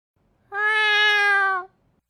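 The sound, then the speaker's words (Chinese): A white cat gives one long, clear meow lasting about a second, steady in pitch and fairly loud, with quiet surroundings before and after. “你家猫怎么回事？怎么跑我这来了？”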